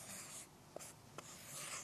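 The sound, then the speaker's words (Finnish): Writing on a paper note, a faint, soft scratching of strokes across the paper, broken by two brief ticks in the middle. “Nyt mä kirjoitan sitten, että mä haluan sen toisen lumiukon vaikkapa koordinaattiin”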